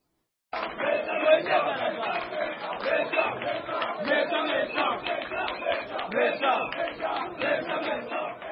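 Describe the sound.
A crowd sings and ululates at UDPS headquarters in Kinshasa. After a brief silence, a loud, dense chorus of voices sets in and carries on in rhythmic pulses until the end.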